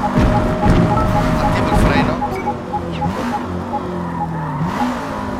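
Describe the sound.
A race car in the video game Forza Motorsport brakes into a right hairpin. Its engine note drops in steps as the throttle is lifted, and a steady mechanical hum runs underneath.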